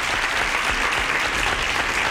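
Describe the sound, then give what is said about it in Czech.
Recorded crowd applause plays as a sound effect during a quiz, a brief, steady burst of many hands clapping at an even level from start to finish. “Z New Yorku, ano, tak tleskám, potlesk letí.”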